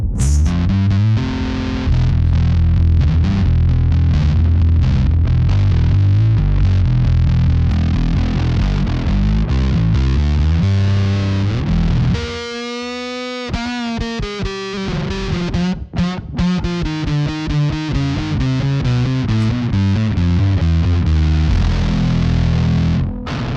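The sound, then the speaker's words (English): Electric guitar played through a green Russian Muff-style fuzz pedal, with thick, saturated chords and low riffs, then a brief gap and sustained, wavering fuzzed notes, loud throughout with no talking. “Green Russian muff style fuzz.”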